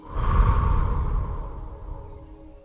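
Deep, audible exhalation during a guided breathing exercise, a loud, breathy release that swells quickly and then gradually fades away over a couple of seconds, alone without speech.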